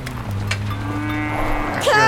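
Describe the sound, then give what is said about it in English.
Cow mooing: a long, low, drawn-out moo that holds steady, with a brief higher-pitched call near the end. “Cows! Dodge cows and horses and sheep.”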